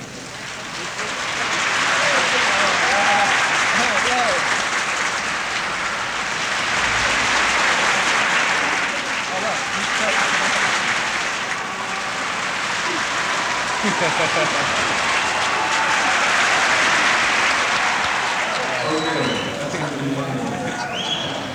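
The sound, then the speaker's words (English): An audience practises a signal, moving its applause around the room. The clapping swells and fades in slow waves, rising to about three loud peaks over twenty seconds and easing between them. “you stop clapping and you start, and you can move the applause all the way around the room, thereby creating noise.”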